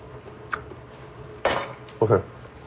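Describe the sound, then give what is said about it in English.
Radish noodles being stirred with dressing in a bowl, the utensil giving a few short clinks and scrapes against the dish at moderate loudness, separated by quiet gaps. “So now you're just stirring together the little radish noodles.”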